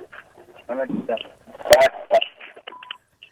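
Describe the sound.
Telephone dialing tones sound as a call is placed. Short electronic beeps and a brief steady tone are mixed in with fragments of muffled talking voices.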